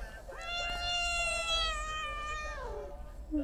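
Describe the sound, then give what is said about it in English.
A domestic cat meowing for attention: one long, drawn-out meow that tails off downward, followed by a brief short meow at the end, with no voices. “I guess you can hear my cat, JJ, who's just meowing for attention.”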